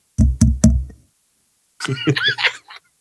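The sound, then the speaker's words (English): A firm plastic toy knocks on a microphone three times in quick, hollow, thudding raps, followed after a pause by a voice speaking. “I am constructed of firm plastic. When I make contact with the microphone, that is the sound you hear.”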